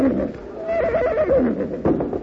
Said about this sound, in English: Oh, there, horses.